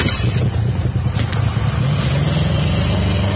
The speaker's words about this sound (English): you first gas up a brand new snowmobile parked just down the road from the main U.S. base at McMurdo Sound.